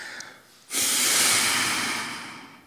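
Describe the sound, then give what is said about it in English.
A deep exhale through the nostrils with lips pursed: one loud, breathy rush of air that begins abruptly and then tapers off slowly over about two seconds, heard alone with no talking. “when you get mad, you shut your mouth, you purse your lips, and you exhale deeply through your nostrils.”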